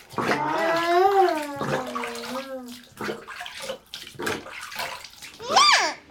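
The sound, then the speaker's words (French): Water sloshes in a bath as a child's hair is rinsed. A child's high, whiny voice rises and falls over it in several loud bursts. “Attends, je vais rincer ça pour que t'en aies pas plein les yeux. Attends, la tête bien en arrière.”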